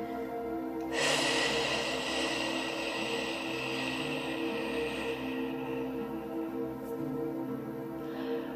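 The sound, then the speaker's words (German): A slow, steady exhaling breath during meditation, a soft airy hiss that begins after about a second and carries on for roughly seven seconds over a quiet sustained tonal background. “Und jetzt wieder ausatmen, acht Zählzeiten.”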